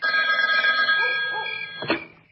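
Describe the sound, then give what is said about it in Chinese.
A telephone ringing as a sound effect in a dramatized story: a single continuous, bright electronic trill that holds steady, then tapers off in loudness toward the end. “刘汝明正在犹豫不决，李成一打来的电话又响”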